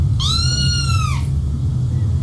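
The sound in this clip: A yellow cat lets out a single clear meow that holds steady and then dips slightly at the end, over a constant low hum.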